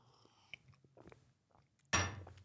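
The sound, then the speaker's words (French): A sip of water being drunk: faint small mouth and swallowing noises, then one louder, brief noisy burst near the end. “Et je vais boire juste un petit coup d'eau”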